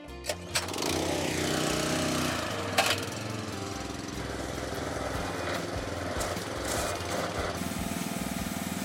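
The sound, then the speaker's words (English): A small generator engine is pull-started: a couple of short cord tugs, then it catches and runs with a steady, loud buzzing drone. “Like any generator, it takes a few pulls.”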